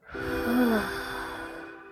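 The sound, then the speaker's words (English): A deep breath in and out, heard as one long, soft, breathy sigh that swells and then slowly fades, with no talk. “Deep breath in and out.”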